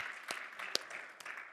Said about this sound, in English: Can you all give Judy a round of applause for helping put up the Christmas?